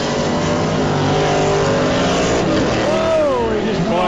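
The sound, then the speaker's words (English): A racing car accelerates hard down a drag strip in a loud, continuous engine roar, with harmonics sweeping up and down near the end. “Did a wheelie. Lane one missed that shift into second, and that lost the race for him right there.”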